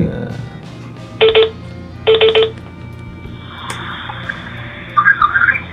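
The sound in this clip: A telephone call ringing out on a Japanese call-in show: two evenly spaced buzzing ring tones sound over a steady low hum, followed by softer scattered electronic tones near the end.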